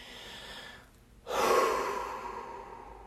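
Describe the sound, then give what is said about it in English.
A single deep breath: after a quiet pause, a sudden loud, airy inhale swells over half a second and then slowly tapers off. “which is always for me a big ass, deep ass, whole ass breath.”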